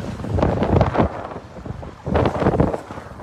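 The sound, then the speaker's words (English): Bitterly cold January wind buffets the microphone outdoors at a Canadian trucker convoy gathering, a low, rumbling roar that swells in two strong gusts separated by a brief lull, with no voices. “It's a bitterly cold wind chill.”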